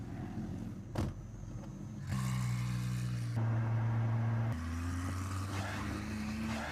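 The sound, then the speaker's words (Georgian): Engine of a Spanish-made Spano supercar built in Valencia, rated at 780 horsepower: a faint, steady mechanical hum that steps between a few held pitches, like shifting gears, with no voices over it. “ეს ერთადერთი ესპანური წარმოების სუპერ მანქანაა.”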